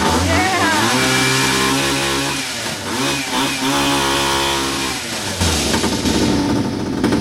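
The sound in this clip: A vehicle engine cranks into life and is revved, its harmonic drone climbing and dipping through several throttle bursts before surging louder near the end.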